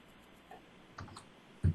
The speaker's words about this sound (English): Well, I'll just click instead of using my keyboard.